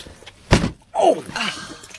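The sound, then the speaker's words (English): A jammed door stuck at the top is forced open with a shoulder: one heavy thud, a short pause, then a longer strained, falling creak-like sound that tails off. “It's probably locked. No, it's just jammed at the top there. If you just put your shoulder to it.”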